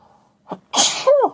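A person sneezes once. A short sharp intake of breath comes first, then a loud explosive burst that trails off into a voiced, wavering tail.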